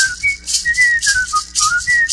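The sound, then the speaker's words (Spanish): A practiced whistler from an oil port town whistles a lively melody alone, loud and clear, with sustained, gliding notes broken by a few short pauses. “los Guinness Records, para silbar 4 horas sin descansar, porque yo demoro 6”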